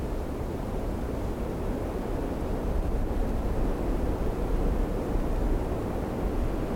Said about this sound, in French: Écoutez-le, écoutez-le, le vent du nord, annonciateur de la neige.